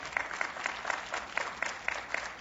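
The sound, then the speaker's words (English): Sparse applause from a small audience, with just a couple of people clapping in a steady, even rhythm. The claps are fairly faint, and no one talks over them. “Two people clapped about the tabernacle.”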